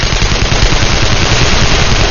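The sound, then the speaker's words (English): Rapid M16 rifle fire in a night ambush, a loud, dense, continuous stuttering roar of automatic gunfire that stays at an even level throughout. “Even as the M16 rapid fires filled the night with hot lead”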